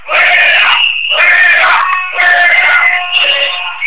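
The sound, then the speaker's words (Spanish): Workers chant in unison in protest at a municipal council meeting, a crowd of voices shouting a short, forceful chant in loud repeated bursts with brief pauses between them. “los trabajadores comenzaban una sonora protesta al unísono contra el equipo de gobierno.”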